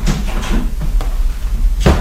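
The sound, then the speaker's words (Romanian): Doors are slammed shut in a home, giving a few sharp, heavy thuds against a low rumbling background, the last bang the loudest. “Care e ăla de trântește ușile la ora asta?”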